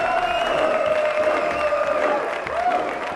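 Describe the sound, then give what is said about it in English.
A theatre audience applauds and cheers at a curtain call, with dense continuous clapping, scattered whoops and a sustained held tone running over the ovation. “In spite of the audience's overwhelming response, on this night, Booth uncharacteristically refuses to respond during the curtain call.”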